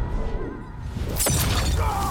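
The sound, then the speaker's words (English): In a fighting video game, a hot chain blade lands on a character's head with a single crunching, shattering impact midway through. Before and after the hit, a dense, rumbling game soundscape continues. “And that hot chain is going to land on Sub-Zero's head. Let's hear that.”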